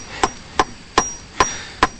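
Five evenly spaced sharp taps of a hammer on a staple, each a short bright knock that quickly dies away, heard alone in a steady rhythm.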